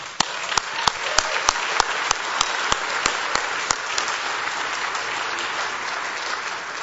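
A church audience applauds as a guest pastor is welcomed, with sustained, even clapping from many hands and a few sharper individual claps standing out near the start.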